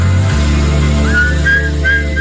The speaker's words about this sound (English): Ooh, nice whistling. It's like a duet.